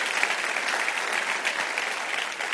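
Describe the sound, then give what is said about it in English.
Church audience applauds to welcome its Brussels campus. The clapping is bright and continuous, holding an even loudness throughout with no voices. “For our friends and family members across the pond, can we give it up for our Brussels campus? We love you guys.”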